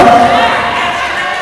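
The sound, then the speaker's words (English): A brief, loud burst of crowd noise, a dense roar of cheering from a school spelling bee audience. “Give a round of applause, everybody.”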